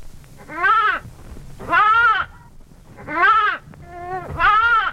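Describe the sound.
A lamb bleats four times at regular intervals. The calls are clear and nasal, each quavering and fairly loud, with quiet pauses between them.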